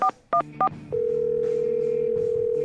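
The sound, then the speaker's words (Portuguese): Someone dials a telephone: three short keypad beeps come first, then a long, steady line tone holds to the end, with no voices. “O telefone tá chamando, vamos lá.”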